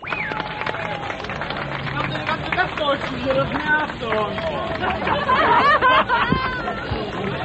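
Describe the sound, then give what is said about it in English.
A large crowd celebrates at the Berlin Wall as thousands of East Berliners cross freely, with dense, continuous chatter, laughter and scattered clapping. The jubilant din stays loud and busy throughout, with many overlapping voices. “People are climbing all over the guard towers. People are standing on top of the Berlin Wall. They're laughing and they're crying and they're drinking champagne.”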